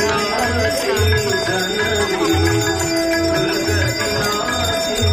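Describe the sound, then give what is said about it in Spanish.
A small bell rings continuously and brightly during a Hindu Aarti light-offering ceremony at a sacred lake. Its loud metallic tone carries over chanting voices, sustained throughout without pause. “La ceremonia se llama Arati o algo así, ¿verdad? Sí, mira, suena además muy bonito esos cánticos, esa campanilla que está diciéndole al dios del lago,”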